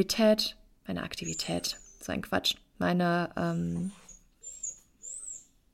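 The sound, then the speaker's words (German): A puppy squeaks for attention with high, thin whines, a few short cries heard while a person talks and more at the end once the voice stops. “ich bin gerade etwas abgelenkt, weil ich einen quietschenden Welpen neben mir habe, der gerade unbedingt Aufmerksamkeit von mir haben möchte.”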